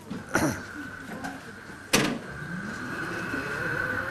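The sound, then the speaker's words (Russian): An electric vehicle moves through a narrow street in an old town, with a steady, thin high-pitched motor whine. Two sharp knocks sound early on, and the whine holds to the end. “давайте проход делаем, я не знаю, если он... Пропустим электромашина.”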